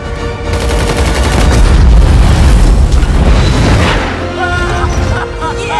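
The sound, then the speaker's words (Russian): An explosion in a film's space-chase battle: a loud, sustained low boom with a broad roar that swells around its middle and then eases, leaving quieter tonal, music-like lines at the end. “Гремит взрыв.”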